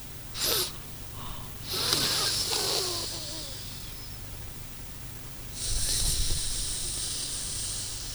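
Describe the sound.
Slow, deliberate breathing in a breathing exercise: a short hissing sniff, then long airy breaths drawn in and let out, and another drawn-out breath at the end. The breaths are faint and steady.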